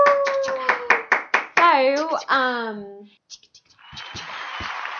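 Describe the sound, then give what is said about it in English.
A handful of quick hand claps from a few people, mixed with talking, followed by a few softer taps and a brief hiss. “Like, applause?”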